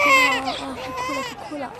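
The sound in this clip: A hungry baby cries while waiting to be fed at home. The cry is a run of wavering, high, tonal wails that break and restart, fairly loud and steady for the whole clip.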